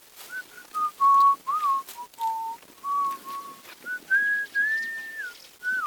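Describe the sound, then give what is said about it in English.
A man whistles a wavering tune while he works as caretaker of a small earthen dam reservoir in rural Kenya. The clear, mid-pitched line dips lower, then climbs in the final seconds, with no talking. “whistling as he works”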